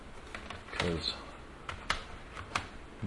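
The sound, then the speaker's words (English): A CD is placed back into its plastic case, producing a few sharp plastic clicks and snaps separated by brief gaps, with a soft rustle underneath. “So that was a pretty darn fast rip. And let me put the CD back in its case,”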